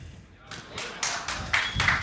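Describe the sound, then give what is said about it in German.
Sparse scattered clapping from a small audience at a hip-hop talk in Hamburg: a few isolated hand claps and dull taps, uneven and thin, rather than full applause. “So wenig Applaus für die äh, Beginner in Hamburg.”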